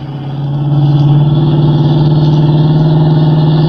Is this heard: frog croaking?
no